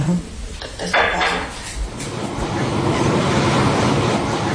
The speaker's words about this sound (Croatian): Ja prvi put u životu u podzemnoj željeznici i putujemo ispod zemlje